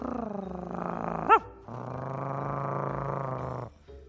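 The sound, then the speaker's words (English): A human voice imitates a dog growling in two low, rumbling stretches, the second longer and steadier, separated by a short higher yelp and followed by a faint final grumble. “I wonder what that sound is, he said. And he didn't know much about dogs and things like that because he was a very young mouse.”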